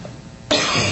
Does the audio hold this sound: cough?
yes